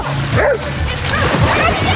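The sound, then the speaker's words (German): Dogs bark and yip while jumping into an outdoor public swimming pool in Cologne on the season's last day, sharp barks standing out over a steady, loud wash of noise. “Die Freibadsaison ist beendet und traditionell haben Kölns Hunde als letztes reinspringen dürfen.”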